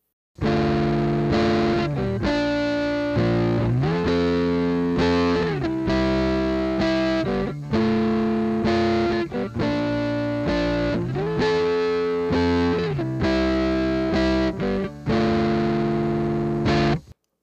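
Electric guitar played through an EarthQuaker Devices Special Cranker overdrive pedal, with harsh, sterile clipping: loud, sustained distorted chords in a repeating riff with steady chord changes, cutting off abruptly at the end.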